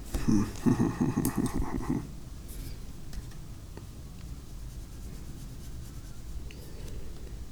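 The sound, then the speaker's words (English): Scratchy strokes of a pencil drawing shadows on paper, a soft, steady rasping texture that continues at low volume throughout, with a denser, louder patch in the first couple of seconds. “And I'm just drawing, like, some shadows.”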